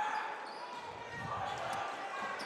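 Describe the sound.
Basketball dribbled during a boys high school game between Exeter and Berks Catholic. Faint repeated bounces sit under steady crowd noise and voices.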